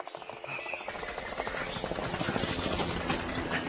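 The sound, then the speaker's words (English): Gunfire in a drama scene, a dense, noisy stream of rapid overlapping shots that builds and stays loud throughout. “You're shooting at me, Galatea! You're trying to kill me!”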